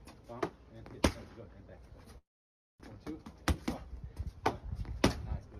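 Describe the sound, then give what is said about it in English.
Sharp slaps of a 65-year-old boxer hitting training pads in a played video, several crisp smacks spaced irregularly and mixed with people talking. “So Sugar Ray Leonard's hitting the pads. He's 65 years old. I want to know what the fuck is he doing here. I'm gonna try it with sound.”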